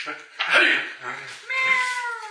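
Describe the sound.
A person voices a cat yowling as it is thrown during a tabletop fantasy game, giving two drawn-out, wavering, meow-like cries with a short break between them.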